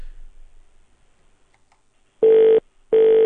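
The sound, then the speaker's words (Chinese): Two short bursts of a steady telephone tone sound after near-silence as a call is dialed to a number that will not connect. Each beep is even and mid-pitched, and a brief gap separates them. “这号也打不过去呀，我们再打一次”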